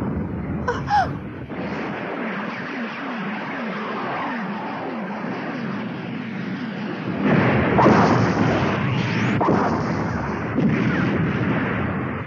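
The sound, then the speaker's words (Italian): Gunfire and artillery blasting at approaching monsters near a valley form a dense, continuous rumbling barrage with no distinct single shots. It swells louder partway through and stays heavy to the end, with no talk. “Poveri idioti, non capiscono che sparando li fanno soltanto infuriare di più.”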